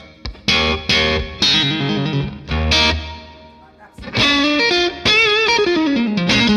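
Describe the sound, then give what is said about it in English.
Electric guitar played through double reverb with a bright tank shimmer: a few picked chords and single notes ring out loud with long, washy sustain, separated by brief pauses. “So we're going double reverb here. Reverb, tiny bits. I mean, so you get the shimmer maybe of yeah. The so that's reverb. Got like a real kind of bright tank sound”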